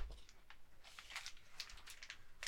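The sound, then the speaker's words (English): Crinkling and tearing of a Pokémon card booster pack from the Shrouded Fable set as it is opened, heard as quiet, intermittent crisp rustles and crackles. “I think that means it is time for some Pokemon cards. And because we have Shrouded Fable stuff, we'll be opening some Shrouded Fable.”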